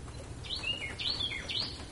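A Cleftorn crest finch calls in three short bursts of high, sweeping chirps, evenly spaced over a soft low rumble.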